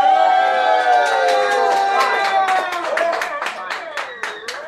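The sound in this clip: A live audience cheers, whoops and claps loudly for a rap battle at Phoenix Landing. Bursts of applause run under sustained shouting that eases off slightly toward the end.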